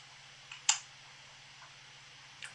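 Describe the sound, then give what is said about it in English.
A single sharp pen click stands out against a faint steady hum, with a few much softer clicks scattered before and after it. “The pen click indicates the end of the podcast, ladies and gentlemen.”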